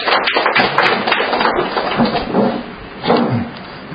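A church audience applauds to welcome people called forward to give testimony, a dense, fairly loud patter of many hands clapping that carries on without a clear pause.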